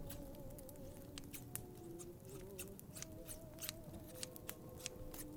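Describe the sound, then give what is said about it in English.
Scissors snip a small hole, giving many quick, faint, crisp cuts in an irregular rhythm over a quiet background. “You know what? I'm gonna snip a small little hole just right here,”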